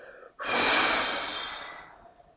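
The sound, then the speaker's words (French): A forceful breath blown out hard through the mouth during a deep-breathing exercise: one loud, rushing whoosh that starts abruptly and slowly fades over about two seconds, with no talk. “Et puis ensuite, de souffler le plus rapidement possible, le plus fortement possible par la bouche.”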